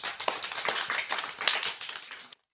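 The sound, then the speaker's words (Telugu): Children clapping together for a little girl after her rhyme recitation: a dense, lively burst of many quick hand claps that lasts about two seconds and then stops abruptly. “పిల్లలు మరొకసారి చప్పట్లు కొట్టరా పాపకి.”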